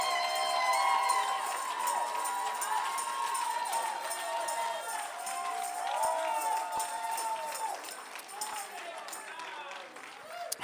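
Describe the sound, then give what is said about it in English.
A church audience shouting and praising loudly: a continuous wall of many raised voices, cheers and cries overlapping throughout, with no pause. “Y'all better settle down. It's starting to sound like a Pentecostal church in here.”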